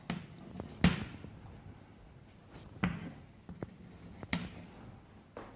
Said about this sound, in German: Also ich schreibe hier jetzt richtig die Titel hin von diesen Arbeiten